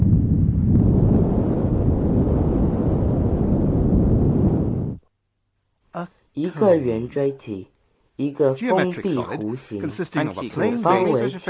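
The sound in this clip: Wind rushes past a cone in a loud, steady roar for about five seconds, then cuts off into silence before people begin talking.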